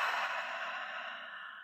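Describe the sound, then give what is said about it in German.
A deep breath during a guided relaxation exercise, heard as a single long, soft, airy breath that holds steady, then gently fades, with no talk. “Atme tief ein durch die Nase und aus.”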